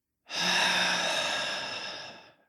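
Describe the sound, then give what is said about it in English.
A deep belly breath, heard as a single long, airy rush of air that swells quickly, then fades slowly over about two seconds. It is soft and alone, with no talking. “let's take a deep in breath way into the belly. And then slowly out.”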